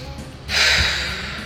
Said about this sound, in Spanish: Inhala y exhala.